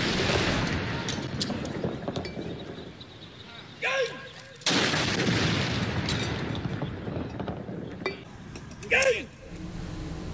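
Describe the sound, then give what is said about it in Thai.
Heavy booms of a royal artillery gun salute fired by an air force royal guard anti-aircraft regiment at an air force aviation park in Bangkok during royal funeral rites, each blast sharp and loud, trailing into a long rolling rumble. “กองทัพอากาศโดยกรมทหารต่อสู้อากาศยานรักษาพระองค์หรือบัญชาการอากาศโยธินยิงสลุดหลวงณอุทยานการบินกองทัพอากาศเขตสายไหมกรุงเทพมหานคร”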